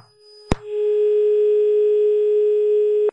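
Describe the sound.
A steady, continuous phone dial tone hums on a line after a call-in caller is cut off. A sharp click comes first, then the even, unbroken tone holds loud and alone until a final click at the end.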